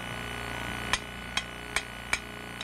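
Heavy hammer blows from a blacksmith forge-welding two pieces together, four sharp, evenly spaced metallic strikes ringing out over a low steady background hum.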